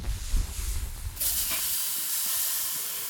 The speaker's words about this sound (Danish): allerførst der skal vi lige have tændt op for grillen